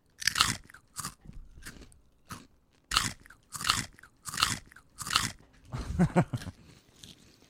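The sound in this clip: Crunchy Belin Chipster crisps being bitten and chewed, with many sharp, loud crunches in an uneven rhythm that turn into a denser stretch of chewing near the end.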